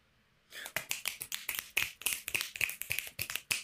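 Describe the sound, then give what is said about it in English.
Finger snaps given as slam poetry applause: many crisp, quick snaps in a dense, overlapping stream that starts after a brief silence. “Those were our slam poetry snaps.”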